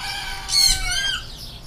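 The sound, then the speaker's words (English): Birds in an aviary behind a farm fruit stand: overlapping chirps and fowl-like calls, with one louder crowing call rising above the steady background chatter, and no talk. “there's an aviary with lots of birds in it.”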